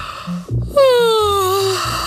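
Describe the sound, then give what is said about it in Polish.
A person yawning widely as a deliberate breathing exercise: a quick intake of breath, then a long voiced yawn whose tone slowly falls, fairly loud, with soft low sustained tones underneath. “Czyli ziewanie. To jest najlepsze ćwiczenie pod słońcem.”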